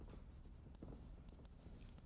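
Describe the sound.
A lecturer writes on the board, giving a faint, continuous scratching with small soft taps as the strokes are made.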